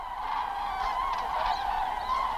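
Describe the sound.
Cranes in eastern Germany call in a continuous chorus of overlapping honking, trumpet-like cries that stay steady and fairly loud throughout.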